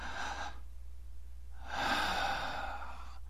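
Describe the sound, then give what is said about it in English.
A deep breath: a short, airy intake followed by a longer, louder, breathy draw of air, heard alone without talk. “finally take a breath”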